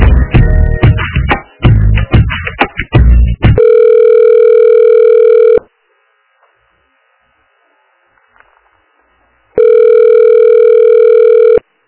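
A telephone line gives a call-transfer tone: two long, steady, loud electronic beeps of the same pitch, separated by several seconds of near silence and preceded by a busy stretch of other sound.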